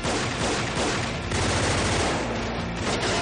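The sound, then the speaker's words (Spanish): Rapid, sustained machine gun fire in a car chase, from a gunman shooting out of a car window. Dense, continuous bursts run without a break at a steady loud level. “Su enemigo hace lo mismo con su metralleta”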